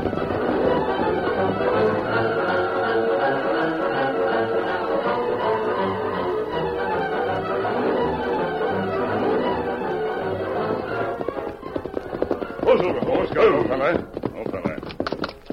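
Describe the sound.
Hoofbeats of a horse being ridden over to the house: a rhythmic clip-clop runs steadily throughout, growing sharper and more distinct in a cluster of strikes near the end.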